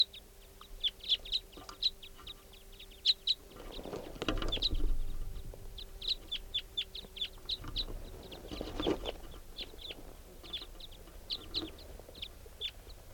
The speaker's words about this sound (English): there's a big flock of crossbills flying over, including some type 5s and some type 2s.